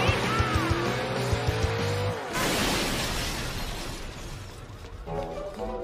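A fast car from the cartoon Phineas and Ferb revs its engine, a whining tone that bends downward before a sudden burst of loud, noisy roaring that slowly fades.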